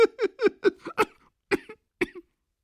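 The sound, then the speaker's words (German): Harsh coughing fit from a sick woman, her laughter turning into unbearable coughing: a rapid run of short hacking bursts, then a couple of more spaced coughs before it stops. “Das Lachen verwandelte sich abermals in einen unerträglichen Husten, der minutenlang anhielt.”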